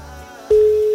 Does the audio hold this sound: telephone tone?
yes